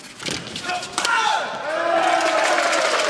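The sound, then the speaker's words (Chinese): Crowd noise fills a sports arena as fans cheer on the Chinese team during a match, a dense steady roar holding throughout with a commentator talking over it. “现场给中国队加油助威的声音响彻整个体育馆”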